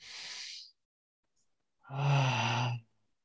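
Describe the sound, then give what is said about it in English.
A deep breath in and out during a guided breathing exercise: a soft, airy inhale, then a quiet pause, then a longer, louder voiced sighing exhale with a low humming tone. “So take a deep breath in.”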